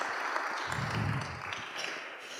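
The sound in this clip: Applause from an audience welcoming a pastor up to speak, a soft, steady patter of clapping that stays faint and even for a couple of seconds.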